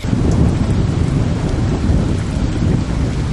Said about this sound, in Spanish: Luego empezó a llover.